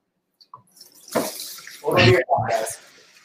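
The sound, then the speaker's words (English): A liquid cocktail is poured into a Taylor slushy machine, giving a splashing, gushing pour that comes in bursts with a brief break before it resumes. “our beverage into the Taylor machine right now to give you guys an indication on uh, how long it actually takes for you to go from liquid to slushy cocktail”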